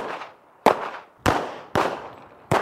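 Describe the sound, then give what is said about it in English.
Gunshots from a lightweight semi-automatic handgun: several sharp, loud cracks fired at a steady pace roughly half a second apart, each followed by a short decaying echo tail, with no talk. “And this is typically their weapon of choice, a semi-automatic handgun, lightweight, accurate, and so simple that practically anyone can learn to use it.”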